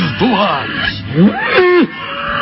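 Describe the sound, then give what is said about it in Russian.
A bull bellows and lows as it charges wildly around a meadow. A few loud, drawn-out moans swell and sag in pitch, one after another, with no gap of silence between them. “Бык как бешеный носился по лугу и мычал”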